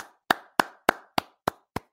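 Six sharp hand claps from the studio audience, evenly spaced and slow. Each clap is crisp and fades quickly, and the later ones are slightly quieter.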